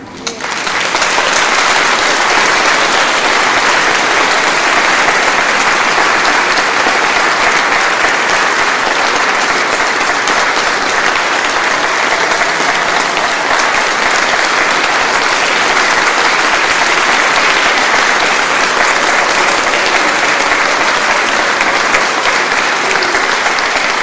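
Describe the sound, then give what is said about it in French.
Applause from a church audience standing to acclaim during a French-language worship service: dense, steady clapping that holds at full loudness without a break for the whole stretch, with a faint crowd wash beneath it. “Alors, mettez-vous debout et acclamons notre Sauveur et notre Roi.”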